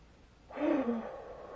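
A deep breath, soft and airy, swelling for about a second with a brief faint voiced tone inside it before trailing off quietly.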